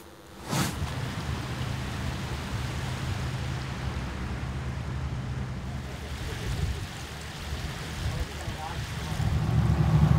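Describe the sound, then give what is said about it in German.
Boat engine drone and water noise as the vessel leaves the Elbe side canal and heads onto the Elbe river, a steady low hum under broad rushing noise throughout, swelling slightly toward the end. “Wir verlassen jetzt den Elbe-Seitenkanal und fahren direkt auf die Elbe.”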